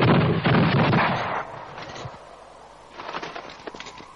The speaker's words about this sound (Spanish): ¡Armas al hombro! ¡Apunten! ¡Fuego!